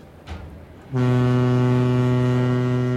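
A steamer's horn sounds as the ship leaves port, a loud, deep, steady blast rich in harmonics. It starts abruptly after a short quiet moment and holds unbroken for about two seconds.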